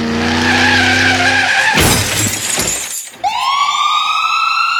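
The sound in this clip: A police car siren on a highway, pulling over a speeding driver. A loud screech and a burst of noise come first, then the siren's rising wail starts near the end.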